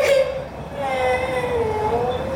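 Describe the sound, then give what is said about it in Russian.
A young girl whimpering and crying after a minor burn, a thin, high, wavering whine that is sustained and gently rises and dips in pitch, with no words. “Ну, солнышко, не плачь. Все хорошо. Ты же не обожглась сильно.”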